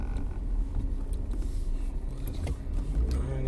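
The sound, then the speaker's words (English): A car drives slowly while searching for parking near an arena after a wrestling event. A steady engine and road rumble carries throughout, with occasional small creaks and rattles. “People don't know how to drive. Trying to find parking.”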